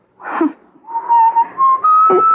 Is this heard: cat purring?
no